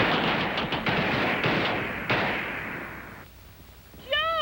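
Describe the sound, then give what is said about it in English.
Gunfire on a shooting range firing line: a dense, sustained crackle of rapid shots with a few sharper reports, fading toward the end. A brief, high whistle-like tone closes the sequence. “Ready on the firing line. She really went through down. With it. And fire.”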